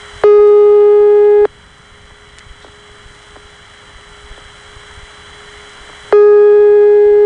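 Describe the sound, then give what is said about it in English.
A telephone ringback tone in Mexico: a loud, steady buzzing tone lasting about a second, then a long silence, then the same tone returning. “Now, normally, the rings in Mexico sound basically like this.”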